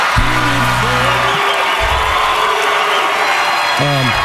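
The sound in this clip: An arena crowd at the CMA Awards chants a long, drawn-out "Luke" for Luke Combs after his Male Vocalist of the Year win. The low, sustained call rises at the start and again near the end over a constant loud crowd roar.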